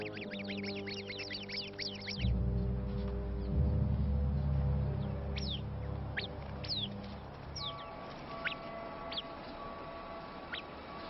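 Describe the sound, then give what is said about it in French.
A sentinel bird sounds its alarm call at a viper: a rapid burst of sharp, high chirps, then scattered single chirps. The calls are faint over a steady low hum. “L'oiseau sentinelle sonne immédiatement l'alarme. Le groupe vient ensemble à la rescousse.”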